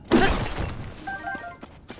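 An object breaks in a Zelda action-adventure video game with a sharp, loud shattering burst, followed by a few scattered smaller clatters that fade out.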